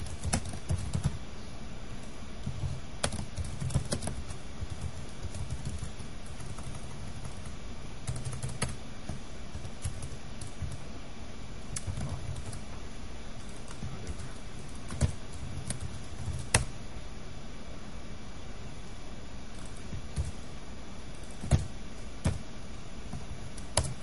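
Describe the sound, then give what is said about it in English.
Rapid typing on a computer keyboard: many irregular clicks and taps, with a few louder key strikes standing out over a steady faint background, and no voices. “So still a lot of typing.”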